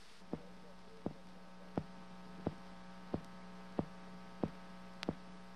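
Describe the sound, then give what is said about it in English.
A human heartbeat transmitted from a sealed spacecraft during flight comes through as about eight faint, evenly spaced thumps over a steady electrical hum. “That is the sound of human life. The heartbeat of Lieutenant Colonel John H. Glenn, Jr., United States Marine Corps. Throughout his flight, that sound will pulse from his sealed spacecraft,”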